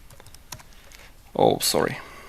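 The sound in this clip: Keys clatter on a computer keyboard in a few light, quick taps, and then a person starts speaking as the typing stops.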